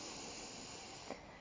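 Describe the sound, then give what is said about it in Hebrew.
A full deep inhale during a guided breathing exercise comes through as a faint, steady breathy hiss lasting the whole moment, with no talking over it. “עוד 10, 9, 8, 7, 6, 5, 4, 3, 2, 1, שאיפה מלאה.”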